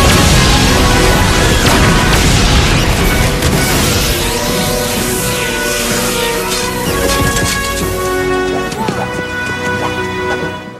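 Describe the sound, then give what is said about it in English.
A titanium laser firing in an animated scene, heard as a loud, sustained roaring blast with dense crashing, booming noise throughout that slowly thins toward the end. “Titanium laser! Fire!”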